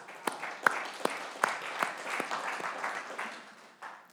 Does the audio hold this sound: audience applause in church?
yes